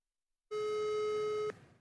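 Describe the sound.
A telephone call goes unanswered: a single steady ringing tone lasts about one second, clean and fairly loud against silence, then cuts off.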